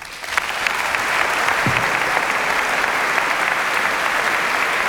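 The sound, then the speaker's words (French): A concert audience applauds after a concerto performance while the performer and conductor bow: sustained, dense clapping that holds an even, loud level for about five seconds with no speech. “Voilà, Fragman, remercié par Gilles Ledur qui salue à son tour le public qui l'applaudit.”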